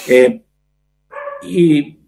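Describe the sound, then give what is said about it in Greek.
Pet dogs barking indoors during a video call: one sharp bark, then after a pause a longer, drawn-out bark with a whining edge. “Ζητώ συγγνώμη για τις παρεμβολές των σκυλιών μου, αλλά. Η φωνή της φύσης δεν είναι κακό.”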